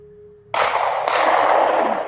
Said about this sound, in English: That's a pistol.